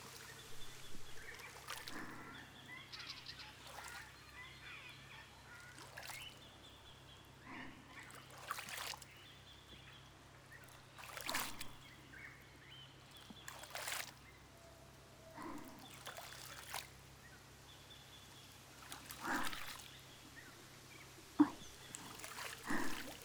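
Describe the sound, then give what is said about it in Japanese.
Warm water is poured over a back to rinse it after an akasuri body scrub, heard as quiet, intermittent splashes and trickles with soft gaps between them. “赤すり終わりでーす。軽くお背中をお流ししますね。”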